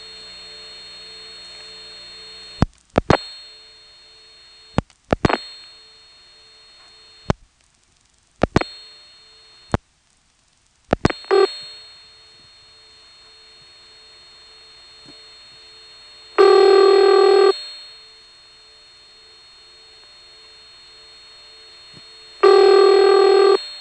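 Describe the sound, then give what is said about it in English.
A telephone line dialing the last four digits of a call through a trunk and tandem office, then ringing: a steady line tone broken by a few short clicks and gaps, then two loud ringback bursts separated by a long pause. “So now we'll dial the last 4 digits, and it will ring.”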